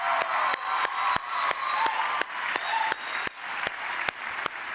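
A church youth rally audience applauds for the people of Eastland Baptist Church. The clapping is loud and steady, with many hands beating together without pause, and the cheering stays in the background.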